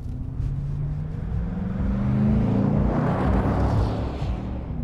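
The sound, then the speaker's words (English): A white SUV drives past a car parked on an unlit street. Its engine rumbles low and steadily, swelling and rising slightly in pitch toward the middle, then easing off as it moves on. “He pulls over on an unlit part of the street and the car, a white SUV, goes past.”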